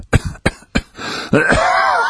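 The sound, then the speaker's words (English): A dying man's ragged cough: several rough, abrupt bursts in quick succession, then a drawn-out, strained voiced breath. “He coughed raggedly.”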